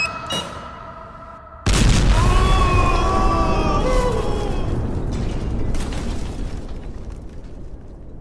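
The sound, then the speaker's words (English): An explosion blows open a hatch: one sudden, loud blast bursts in after a quieter opening, then a dense roaring rumble carries on for several seconds and slowly eases off. “Blow the hatch! Blow the hatch! Okay, I'm doing it now.”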